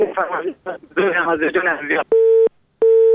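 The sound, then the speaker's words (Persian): A phone busy tone follows a dropped call: a person talks first, then two identical steady, mid-pitched beeps sound alone, separated by a short silence. “متاسفانه تماس برادر ما قطع شد و ما نفهمیدیم که کدام آهنگ فرمایش دادن.”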